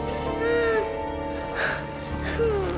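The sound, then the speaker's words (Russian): A young boy whimpers after his father yanks his arm and he falls to his knees: two short, wavering, high-pitched whines with gaps between them, and no words spoken. “Тот падает на колени, хнычет.”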